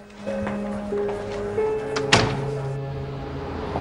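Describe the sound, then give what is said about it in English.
A door closes with a single dull thunk, set against soft sustained musical tones that carry on before and after the impact. “Close the door behind you.”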